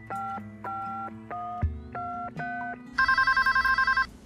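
Touch-tone dialing on a telephone, a few clear beeping tones, followed by a rapid, trilling electronic ring as a call to a best friend goes through; no talking.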